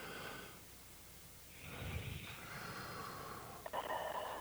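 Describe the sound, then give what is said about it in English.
One slow, deep breath, taken as part of a relaxation breathing exercise, is soft and airy over a faint steady hiss, with no talking. “I would ask the listeners to just experiment by taking 3 very deep breaths.”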